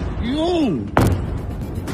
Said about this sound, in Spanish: Este sonido de un bombardeo iraní en Tel Aviv